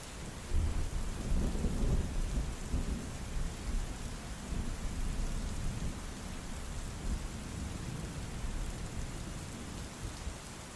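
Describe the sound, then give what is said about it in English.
A thunderclap rolls around cliffs, a deep rumble that swells early on and then settles. Steady rain continues through the rest, with no voices. “Another thunderclap rattled around the cliffs like a natural auditorium,”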